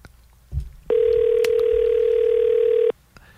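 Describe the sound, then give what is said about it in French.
Ringback tone of an outgoing telephone call: a single steady, loud pitched tone lasting about two seconds, preceded by a brief click and followed by quiet. “On appelle, on appelle, on appelle, on appelle, on appelle. OK? Ça sonne. Ça sonne.”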